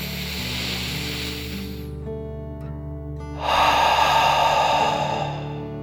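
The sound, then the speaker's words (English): Deep breath in and out: a long, airy inhale, a brief pause, then a louder, rushing exhale, over a soft sustained tonal background. “let's take one last deep dragon breath in and out.”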